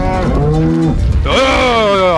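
Cows moo loudly while being herded on a farm, giving two long lowing calls back to back, the second starting with a rising pitch.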